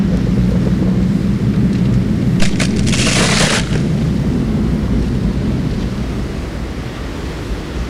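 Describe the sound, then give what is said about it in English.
An earthquake attack sound effect in an animated battle during a snowstorm: a loud, continuous rumbling roar with a bright crackling burst midway, then the rumble slowly eases. “Take this! Earthquake!”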